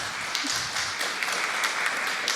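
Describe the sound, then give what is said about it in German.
Audience applause at a festival, cheering the news of free drinks included with the ticket. Moderately loud clapping continues throughout, with a few sharper individual claps poking out of the steady patter. “Für die freien Getränke gibt's Applaus. So will ich das sehen.”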